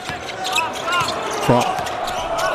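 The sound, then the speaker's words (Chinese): Basketball dribbled on court during a China national team game, a few dull bounces beneath steady crowd noise with high squeaks and a brief tonal burst midway, and voices talking over the action. “冯奥运球找节奏，投一个，短了。”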